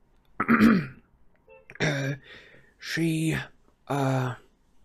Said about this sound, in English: He cleared his throat and tried again.